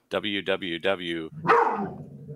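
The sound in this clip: A dog barking: four sharp, evenly spaced barks in quick succession, followed by a louder, rougher bark that trails off into a fading, lower growl.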